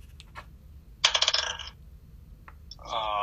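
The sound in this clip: Dice clatter across a table during a tabletop role-playing game, a quick burst of bright, rattling clicks, followed by a few fainter, scattered clicks.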